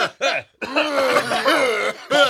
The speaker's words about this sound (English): I was able to actually do an actual cough.